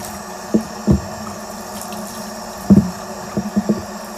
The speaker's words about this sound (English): And then the bottom comes off, so I'll just give another twist to the right, give it a rinse.